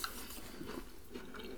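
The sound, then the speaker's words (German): Someone chews a chocolate biscuit filled with peanut butter, with faint, soft crunching and moist lip-smacking sounds. “Schön Geschmatze hier.”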